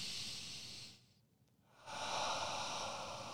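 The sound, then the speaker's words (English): Deep breaths out through the mouth during a guided relaxation exercise: a long, loud breathy hiss, a short quiet pause, then another sustained rush of air. “Take a deep breath. Out through the mouth. Roll the shoulders backwards. Deep breath.”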